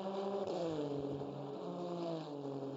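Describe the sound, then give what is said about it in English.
A race car engine, the black number 10 car on Michelin tyres, drones on the Belle Isle street circuit while its tyres are brought up to temperature. The harmonic engine tone is loud and steady, dipping slightly in pitch early on. “black number 10 car goes out with Ricky Taylor behind the wheel. And what a record they have here on the streets of Belle Isle. Bringing the Michelin tyres up to temp.”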